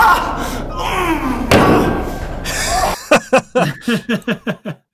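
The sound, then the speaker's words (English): A head hits a table with a heavy thud in a noisy passage, followed by a run of short, rhythmic voiced bursts that fade out. “Yep, that shot right there. My head made contact with the table for real.”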